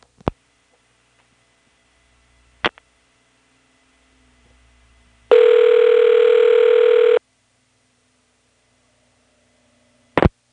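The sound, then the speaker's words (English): A telephone dials a 663 number through a toll network and gets a ringing signal: a few sharp clicks, then one loud, steady buzzing tone lasting about two seconds, then another click after quiet. “let's dial 7. And then dial the last 6 digits of a 663 number. You'll notice it rings pretty quick.”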